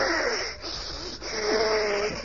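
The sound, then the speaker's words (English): A person breathing in and out during a stethoscope check, producing a continuous raspy, wheezy airflow with faint whistling tones that swell and fade, loud and unbroken with no talk. “Now, just breathe in and out, please.”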